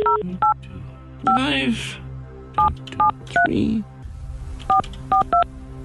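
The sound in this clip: Telephone keypad dialing a number: several crisp two-tone beeps in short, irregular groups over a low steady hum, with brief voice sounds between some of the tones.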